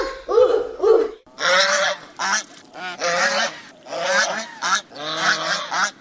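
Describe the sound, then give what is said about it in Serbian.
Goose honking: many loud, harsh, nasal honks in quick succession, each a short or drawn-out blast with brief gaps between, continuing across the whole clip with no talking. “Je li to guska?”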